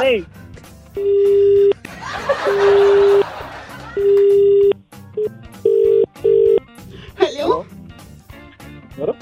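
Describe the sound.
A telephone being dialed: several steady electronic touch-tone beeps of varying length, interspersed with people talking and brief laughter.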